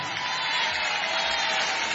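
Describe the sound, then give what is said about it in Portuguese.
Audience applause at a live concert: steady, dense clapping at an even, moderate level for the whole clip, with no voices standing out. “Uma salva de palmas para este menino todo giro.”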